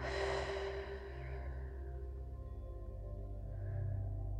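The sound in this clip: A deep breath exhaled slowly during a guided relaxation exercise, a soft breathy rush loudest at the start and fading away over about a second and a half, above a steady, low, sustained tonal background.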